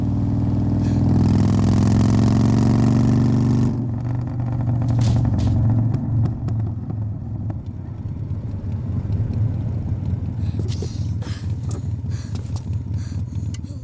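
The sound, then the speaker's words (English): A motorcycle engine running, with a loud, steady low rumble for the first few seconds, then a quieter, lower drone scattered with light clicks and knocks. “Time out. Stop the bike. Time out. Come on, stop the bike.”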